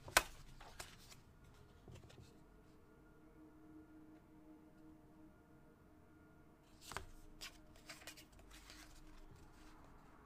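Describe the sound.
A deck of cards is handled and shuffled with faint, quick riffles and flicks, in one bout at the start and another around seven seconds in, with soft rustling between.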